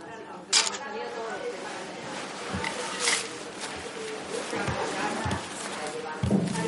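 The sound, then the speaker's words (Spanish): Camera shutter clicks as a woman takes a series of posed photos of herself. A few sharp, brief clicks stand out at uneven intervals over a low, steady background. “sigue haciéndose fotos algo ridículas”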